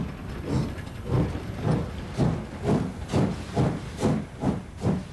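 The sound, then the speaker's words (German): Steam locomotive 5519, a preserved national-monument engine in Luxembourg, departs running tender first toward the Ardennes, its exhaust giving many steady, evenly spaced hissing chuffs at a moderate, regular pace, loud and alone. “Und weiter geht die Reise. In Richtung Ardennen fährt 5519 Tender voraus.”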